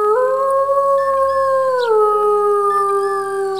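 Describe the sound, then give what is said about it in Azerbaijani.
A black wolf howls in one long, sustained, tonal note that holds steady and then drops lower in pitch partway through, loud and alone over a quiet background. “Kəndin yaxınlığında, yəni meşənin içərisində bir qara canavar yaşayırdı.”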